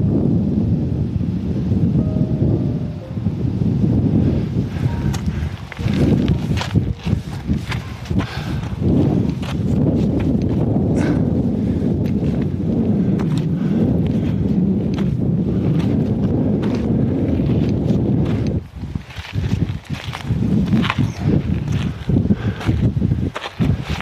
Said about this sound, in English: And I apologize for the audio here, but yeah, it's windy.